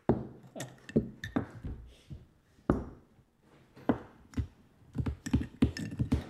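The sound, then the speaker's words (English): Chess pieces swept off a chess board, many wooden clacks, clinks and knocks in quick irregular bursts, fairly quiet overall. “That's the sound of my pieces being swept from the board in what could be called Operation Mop-Up.”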